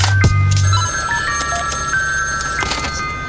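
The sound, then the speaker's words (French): A telephone rings with loud electronic tones, in short repeated bursts over a steady buzzing background, with scattered clicks and sharp transients around the ringing. “On entend sonner un téléphone, ça peut être n'importe qui. Mais un téléphone qui sonne exige qu'on réponde, n'est-ce pas?”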